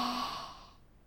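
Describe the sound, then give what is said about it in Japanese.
A single soft exhaled breath during a guided in-and-out breathing exercise, a gentle airy sigh that fades away to silence within a second. “吸って、吐いて、”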